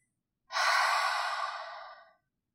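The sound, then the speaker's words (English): A single long exhale through an open mouth, like fogging a mirror: a breathy hiss that starts abruptly, holds strong, then tapers off over about a second and a half, heard alone in silence. “We'll inhale through the nose to fill up the lungs and exhale through the mouth, making a sound like fogging a mirror. It will sound something like this.”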